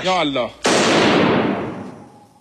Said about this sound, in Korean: 이 과정에서 앵커는 아랍에미리트 국기를 향해 소총을 발사하는 장면을 연출했습니다.